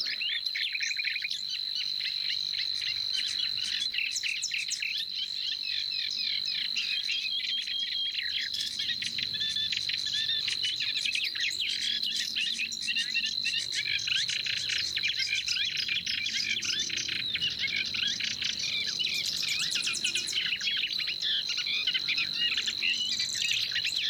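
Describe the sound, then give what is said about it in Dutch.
A night marsh chorus of nightingale, reed warblers, Savi's warbler, grasshopper warbler and bittern: a high, insect-like reeling trill runs steadily throughout, with varied chirping and warbling song layered over it at a constant level. “Henny Radstaak maakt een compilatie van de nachtegaal, kleine karikiet, rietzanger, snor, sprinkhaanzanger. Hou die maar eens uit elkaar, die snor en die sprinkhaanzanger. En de roerdomp.”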